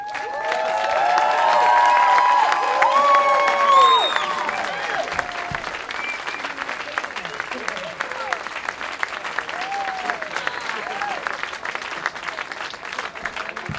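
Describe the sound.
Applause with cheering greets the musician Melissa Etheridge at an Apple Store event. A few whistles and shouts ride on the clapping early on. The applause peaks over the first four seconds, then carries on a little softer.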